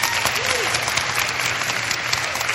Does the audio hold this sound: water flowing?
no